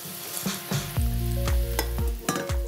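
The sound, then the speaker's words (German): Sizzling and bubbling of a cream and butter sauce being swirled in a pan as it comes to a boil, a steady hiss broken by intermittent sharp clicks, with no talking. “Und jetzt schwenken wir das Ganze einfach nur. Lassen das einmal aufkochen. Dann reduziert die Sahne quasi jetzt dann noch so ein bisschen ein.”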